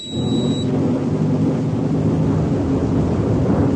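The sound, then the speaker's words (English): Heavy buffeting of a shuttle during a braking burn for atmospheric entry: a dense, continuous rumbling roar that stays steady and loud throughout, with a faint high whine only in the first moment. “How long does this buffeting last for? It feels as if the shuttle's going to shake itself to bits.”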